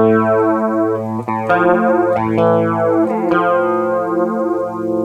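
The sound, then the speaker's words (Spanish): Guitar through an exaggerated phaser effect: sustained notes with deep sweeping swirls that rise and fall through the tone, loud and continuous. “Y voy a exagerarlo también ahora con el phaser, ¿no?”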